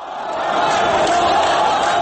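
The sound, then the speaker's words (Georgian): Mohamed Morsi supporters shout as a crowd at an Egyptian protest while police special forces storm their position. The roar of many voices is dense and continuous, swelling over the first half second and then holding loud and steady. “ასეთი შეძახილებით ხდებოდნენ სპეს დანიშნულების ნაწილების იერიშ მუჰამედ მურსის მომხრეები”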